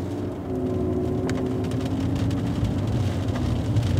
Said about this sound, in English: So this is the entrance, and so there's a main avenue. We are driving in Mountain View Cemetery in Oakland, California.